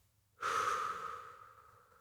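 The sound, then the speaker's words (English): One deep breath from a guided belly-breathing exercise. It starts abruptly, holds steady as a soft airy rush, then slowly fades over about a second and a half, faint and alone with no talk. “what would it look like to inhale into your belly first? Hold your breath with an I am affirmation. And as you exhale, say free.”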